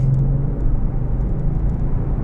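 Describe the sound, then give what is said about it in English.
A car drives up a hill in fourth gear at about 55 miles an hour, its engine giving a loud, steady low rumble that holds evenly throughout with no voices. “Hang on to your hats. Fourth gear, 55 miles an hour.”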